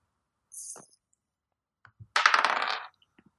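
Dice roll during a tabletop roleplaying game: a brief high rattle, a couple of small clicks, then a longer clattering burst as the dice tumble, ending in a few faint ticks. No voices.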